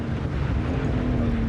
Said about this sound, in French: Et là, ça freine. Ah ouais. Gros carbone céramique de série. Et là, au Paul Ricard, il vaut mieux avoir des bons freins.